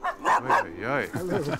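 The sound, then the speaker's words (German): Dogs barking and yipping in a household at a front gate, giving short, sharp yaps mixed with whiny, tonal cries in a quick run of about a second and a half. “Mit den Hunden Lilly, Lola und Lupi und mit Ehemann, selbstverständlich.”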